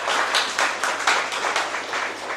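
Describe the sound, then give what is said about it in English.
An audience applauds at an Australia Institute event, with dense, steady clapping that swells in a few gentle surges and carries on alone throughout. “So if you could put your hands together, please, for the Australia Institute.”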